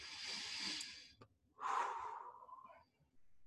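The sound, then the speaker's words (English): Deep breaths taken to catch breath while seated after already being winded: a long, airy hissing inhale, a pause, then a heavier, lower, rougher exhale, and the start of another breath. All soft and quiet, with no speech. “And I just got to catch my breath for a second. I don't know why. I sat down and I was already out of breath, so on. There's a good breath. Do one more.”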